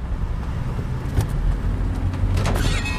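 A car's nearly new alloy wheel rim scrapes, heard as a few brief harsh bursts over steady engine and road rumble.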